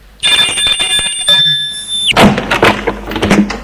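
A doorbell rings at a third-floor apartment door in an upscale renovated building. A bright, sustained electric ring shifts to a lower second tone and then cuts off after about two seconds. Rustling and clattering noises follow.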